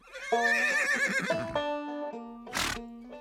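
A horse, a Prussian cuirassier's mount, whinnies in a long, loud, quivering high call that wavers and trails off, followed by a short breathy burst of noise.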